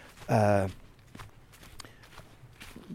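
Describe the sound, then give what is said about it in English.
Footsteps walk outdoors beside a green fence. Light, faint steps follow a short, loud voiced sound at the start. “And I'm walking alongside this green fence.”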